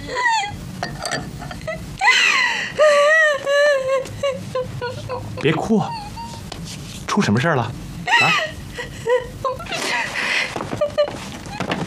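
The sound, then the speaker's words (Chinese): A young woman crying in distress, with high, wavering wails and sobs that rise and break in uneven bursts, broken by short gasping pauses. “你怎么了？别哭，出什么事儿了？”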